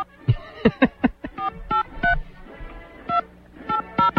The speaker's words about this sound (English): All right, we're going to try to dial him up. See if we can get him on.